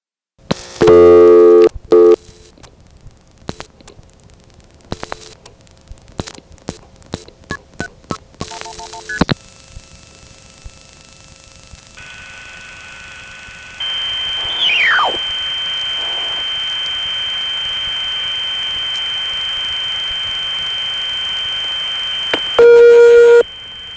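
Touch-tone dialing of 179 and then a phone number produces bursts of tones and a run of clicks. Sustained tones of a slow busy signal follow, with a brief squeal partway through and a final burst of tones near the end.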